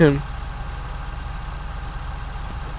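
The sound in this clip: A car engine idling in the video game FiveM, a steady low rumble with an even, pulsing hum that holds at a constant pitch throughout.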